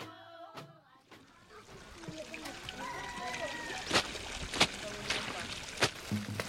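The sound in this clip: Water splashing and sloshing as a woman washes at a village standpipe in Malaysia, with a steady wash of running water and several sharp splashes in the second half.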